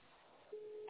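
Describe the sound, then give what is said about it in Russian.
Telephone ringing tone on an unanswered call: faint line hiss, then a single steady tone starts midway and holds to the end. “Ну вот, сейчас вот гудки идут, но ничего не происходит.”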